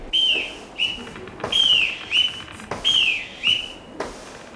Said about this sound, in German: Deckscheuer nach der Pfeife des Bootsmannes.